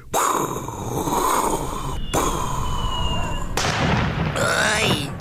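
Firework rocket exploding: a loud, sustained burst of hissing, rumbling noise that breaks off briefly a couple of times and ends in crackling.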